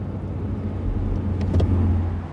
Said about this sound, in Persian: ماشین از اتوبان میگذره.